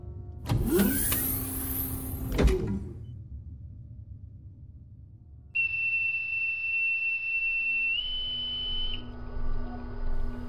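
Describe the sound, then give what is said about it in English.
A spacecraft hatch opens after docking with a loud mechanical rush and clank that lasts about two seconds. After a quiet gap, a steady high electronic tone sounds over a low hum, steps slightly higher, then stops. “Go for hatch opening. Go for opening.”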